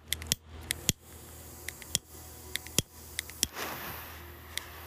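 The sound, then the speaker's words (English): A torch lighter being lit gives many sharp, dry clicks at an uneven pace, with a short breathy hiss rising near the end, all fairly faint. “Torch noises, you know.”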